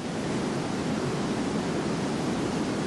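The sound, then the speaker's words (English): Water rushing over Niagara Falls makes a dense, steady, unbroken roar, even and deep-toned throughout, with no other sounds. “It's the sound of the awesome power of 225,000 cubic feet per second of water rushing over the Niagara Falls.”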